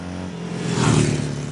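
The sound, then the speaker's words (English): Engine hum of a Honda Goldwing touring motorcycle being ridden, a low, steady drone that swells a little in loudness midway and then eases off. “one of the largest bikes on the market, the kind of one you see in those big American movies when they're riding all across America. It's a Tourer bike”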